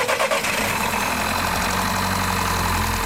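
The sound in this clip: A car engine with a weak, discharged battery cranks in a brief ragged burst, then catches and settles into a loud, steady mid-pitched idle.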